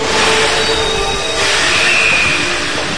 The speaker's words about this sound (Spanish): lo que van a escuchar es cómo la militante y diputada chilena Camila Vallejo manejó un subte autorizada por un maquinista trosco de Metro Delegados